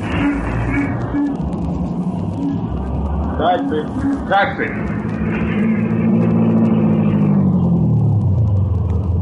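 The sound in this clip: A taxi's engine rumbles as it pulls up at a street corner without a stoplight, a steady low drone that holds throughout, with people talking over it.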